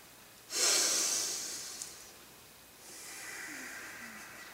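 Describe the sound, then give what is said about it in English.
Forceful breathing from a yogic bhastrika bellows-breath exercise: one loud, airy hiss of breath, then after a short lull a longer, softer breath that holds steady to the end, with no other sounds. “We call that bastrika.”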